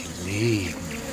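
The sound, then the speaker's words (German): A bee buzzes as a radio-drama sound effect, chasing a barefoot figure across a meadow. The low, droning hum swells louder near the middle of the brief moment, then eases back while continuing steadily. “Verfolgt von der Biene.”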